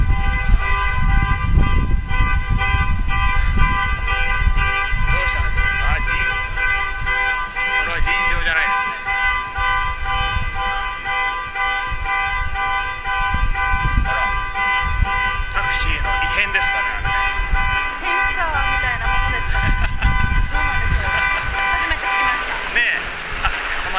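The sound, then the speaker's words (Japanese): Car horns honk loudly on a street with a flower shop, sustained blaring tones running on over continuous traffic noise, with people talking throughout. “すごいクラクションを鳴らしてます。”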